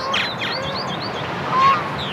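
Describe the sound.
Birds calling beside a creek lined with green space in Kansas City, giving a few short, high chirps and whistled notes early on over a steady, low outdoor background hum.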